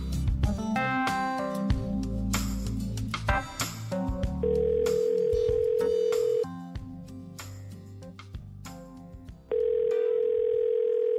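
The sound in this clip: A telephone dial tone sounds while a call is being placed: a steady, fairly loud hum with a hiss. It comes in two sustained stretches, following a busier passage of other sounds at the start.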